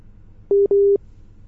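A telephone busy signal on a failed phone line: two loud, steady mid-pitched beeps, the second longer than the first, over faint background hiss.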